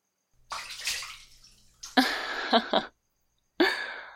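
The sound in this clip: Water splashes and sloshes in a bathtub in three distinct bursts separated by brief silences, the middle burst longer, with a few sharp slaps inside it.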